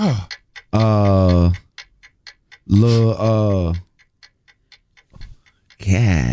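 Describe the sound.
A countdown timer ticks steadily through a 30-second game round, with rapid, regular clicks, while a loud voice breaks in with several sustained, tonal bursts over it.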